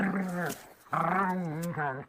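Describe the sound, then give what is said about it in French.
A well-fed dog growls and snarls while baring its teeth at a wolf. It gives two drawn-out, throaty, whining vocal calls separated by a short gap, with a brief third call at the end. “se mit à aboyer et à montrer les crocs”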